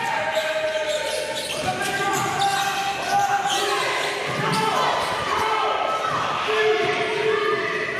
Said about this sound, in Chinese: 球员在场上反复练习传球、运球与投篮，也在高强度训练中熟悉彼此的节奏。